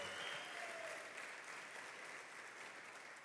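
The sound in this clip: A church audience applauds in steady, dense clapping that holds at an even level throughout, with no single voice standing out.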